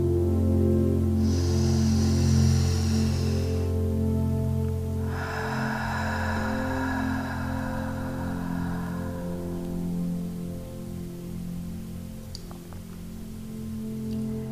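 A long, deep breath during a guided relaxation exercise, heard as two extended airy rushes of breath, each lasting a few seconds, over a steady, soft musical drone, with no talking.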